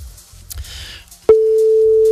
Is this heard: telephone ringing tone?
yes